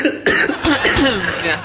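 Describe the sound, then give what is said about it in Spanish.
Coughing from a person down with the flu: a few short, harsh coughs spaced across the moment, fairly loud and mostly alone with little talk. “Sí, estamos iguales. Un poquito de tos.”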